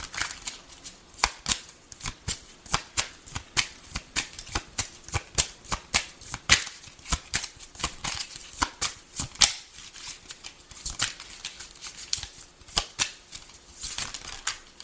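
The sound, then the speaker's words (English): Tarot cards are shuffled by hand, giving many quick, crisp, papery clicks and flutters in uneven bursts. The sound is fairly faint and carries on steadily with no talking. “These cards keep on falling out.”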